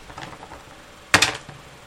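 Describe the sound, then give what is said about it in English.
Dice rolling on a dice tray: one short, loud clatter of a few quick rattling hits that dies away fast, with only faint low background noise before and after. “So, I'm going to say, on my dice tray,”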